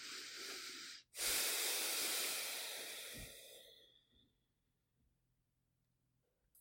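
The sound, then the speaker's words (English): Deep breathing in and out: a soft, airy intake, a brief break, then a long hissing exhale that gradually trails off into near silence. “go ahead and open your eyes and receive a nice big breath.”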